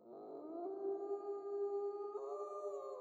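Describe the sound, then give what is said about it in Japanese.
A wolf howling outside at night, a long, sustained tonal cry that holds a steady pitch and then steps slightly higher near the end. The howl is faint and alone, with no voices. “あら、夜だからでしょうか。外で狼が吠えていますね。”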